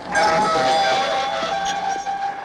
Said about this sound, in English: He trembles as the train rumbles past Lara, who walks just a few feet away from him.